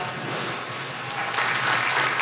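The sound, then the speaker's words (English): Aquarium staff applaud as four belugas enter the water of their new home at a Chicago aquarium. The dense, steady clapping runs the whole way through and grows louder in the second half. “Staff applauded as they entered the water for the first time.”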